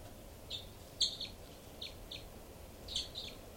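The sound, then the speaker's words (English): Two birds calling, with many short, high chirps at uneven intervals. Some chirps stand out louder than others over a steady, low background hiss. “Both birds. Both birds there, mainly loud 318.”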